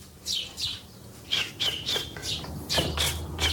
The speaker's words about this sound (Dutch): Jonkies. Ja? Fantastisch, ja. Jonge mussen, kijk, die ene wordt direct gevoerd.